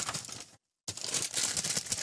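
Crinkling of a snack bag of American Sour Patch sour gummy sweets: dense, loud, bright crackling rustle in two stretches split by a brief silent gap, the second stretch longer and steady.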